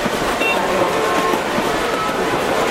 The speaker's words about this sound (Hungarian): A mozdonyon azért van két ember, mert ott akkora zaj, hogy egy ember el sem tudná viselni.